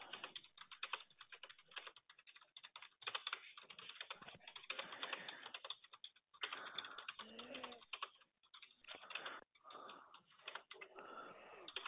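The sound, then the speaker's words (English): Faint computer clicks and key taps as someone clicks to open notes, many quick irregular clicks in a muffled, low-fidelity recording. “let me just click on the notes.”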